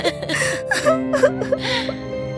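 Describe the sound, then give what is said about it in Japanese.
A girl cries alone in a few whimpering, gasping sobs, breathy and uneven, over a soft, sustained musical tone. “シンデレラは取り残され一人で泣いていました。”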